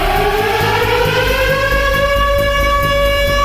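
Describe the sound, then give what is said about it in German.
A civil defense warning siren wails during Germany's nationwide warning-day test alarm. A loud, continuous tone with stacked harmonics holds steady and drifts slowly upward in pitch, with no voices. “Beim Probealarm um 11 Uhr werden wieder Sirenen heulen”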